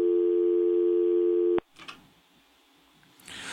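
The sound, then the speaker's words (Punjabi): A phone call disconnects: a steady, loud telephone tone holds for about a second and a half, then cuts off abruptly, leaving faint, low background noise. “ਤੁਹਾਡੀ ਕਾਲ disconnect ਹੋ ਗਈ”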